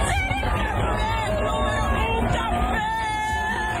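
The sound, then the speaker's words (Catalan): A stadium crowd cheers and roars as Cape Verde earns its first-ever World Cup point with a draw, a dense, loud, unbroken wall of voices lasting throughout. “Això és l'emoció del públic ahir a l'estadi en veure com Cap Verd s'enduia el seu primer punt en un Mundial.”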